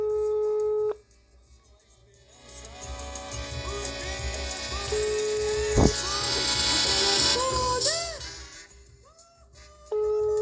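A telephone ringback tone on an outgoing call: a steady electronic tone sounds briefly at the start and returns at the end, with a louder, busier stretch of other sounds filling the middle.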